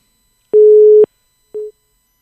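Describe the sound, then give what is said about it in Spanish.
A telephone busy tone sounds after a call drops: two steady, mid-pitched beeps separated by silence, the first about half a second long and the second shorter. “A ver, se nos cayó la llamada con la presidenta del Sindicato Nacional de Madres Comunitarias.”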